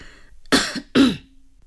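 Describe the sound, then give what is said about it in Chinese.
Two short, harsh coughs in quick succession, rough and throaty like a person clearing the throat, loud and alone with no talk. “咳嗽了一声”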